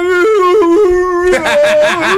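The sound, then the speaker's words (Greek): A dog howls in a chant-like way at a blessing of animals, a loud, sustained tone that steps between several pitches before holding a steadier, slightly rising note. “Πώς ψέλνει ένα σκυλί.”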